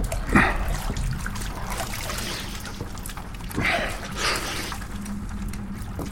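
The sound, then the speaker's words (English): Running water while someone washes up, a steady hiss punctuated by a few brief splashes. “But, might as well wash up first.”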